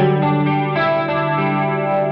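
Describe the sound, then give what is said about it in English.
A guitar plays through a Dimension C chorus effect turned up to setting four, with reverb on, giving a loud, sustained, warbling chord with a rich wavering shimmer that shifts slightly partway through. “Yeah, it comes out very chorusy on guitar. Very chorusy, yeah. Mm-hmm. And if I just like crank that all the way to setting four,”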